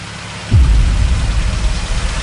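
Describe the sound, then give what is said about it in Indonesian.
A crowded angkot minibus pulls away, its engine rising abruptly into a loud, steady low rumble after half a second of quiet hiss, then holding a rough, even drone to the end with no talking. “Hingga angkot pun melaju.”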